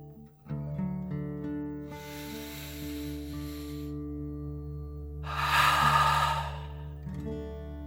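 Slow, deep breathing in and out, heard as two long breathy hisses, the second louder, over soft, steady tonal music.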